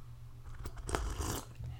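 Close-miked biting and chewing of hot food with raspberries: a few soft, wet crunches over quiet mouth noise, all faint and brief.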